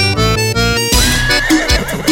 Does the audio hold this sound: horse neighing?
yes